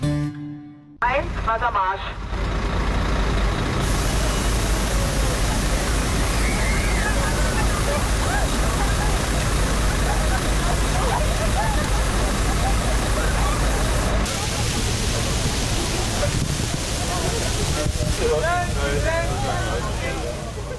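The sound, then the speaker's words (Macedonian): Rushing spray of a police water cannon hosing crowds seeking relief from the heat in Berlin. A loud, steady hiss of water runs throughout with murmuring crowd noise beneath, shifting in texture partway through. “Го слушате звукот на полицијата во Берлин, што прска воден топ во толпи што бараат спас од жешката топлина.”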